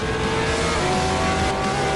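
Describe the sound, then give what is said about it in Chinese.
Race car braking hard at the limit, its engine loud and continuous with dense, whining harmonic tones. “150米，大力刹车，极限制动，稍微急了一点点”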